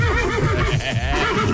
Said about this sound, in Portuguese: Cavalo, vai lá.